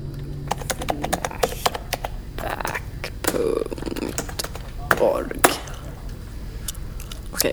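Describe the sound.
Typing on a computer keyboard, with many quick clicks and taps in an uneven rhythm, heard under people talking throughout.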